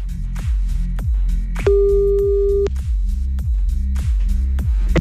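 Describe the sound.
Telephone line tones sound as a call is placed: a steady, held electronic tone lasts about a second over a regular, repeating low throbbing pulse, with no voices.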